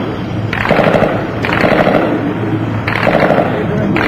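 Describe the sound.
Gunfire in a video game, with a sniper hitting the players' vehicle: dense, rattling bursts of fire in about three long stretches, loud throughout, with a voice present.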